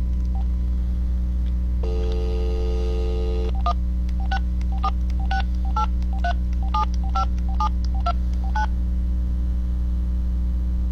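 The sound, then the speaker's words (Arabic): Keypad tones of a phone call being dialed: a sustained tone, then a quick string of many short beeps, all over a steady low hum. “نتصل الآن بالشيخ عدنان”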